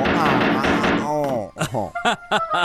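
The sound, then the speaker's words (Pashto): A gavel struck on a judge's court table: a few sharp wooden knocks ring out after a stretch of speech, closely spaced and loud. “پاپی د قاضي پر میز ټوپ کړه او سټکی را واخیست او د محکمې دړه یې پرې ووهله.”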